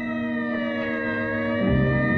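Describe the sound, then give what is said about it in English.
A police car siren sounds as the car arrives, holding a sustained, loud, high tone with a low vehicle rumble building toward the end, with no voices. “As a police car arrives with Bill”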